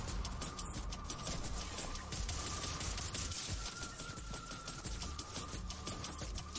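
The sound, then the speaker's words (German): Rapid minigun-like weapon fire in the video game Fortnite, a continuous dense rattle of shots with a thin steady tone running through it, faint and without voices. “Da hat gerade auch nochmal eine neue Waffe gezeigt. Hier eine Art Minigun. Eine Art Pumpgun, aber die auf weit Entfernung geht.”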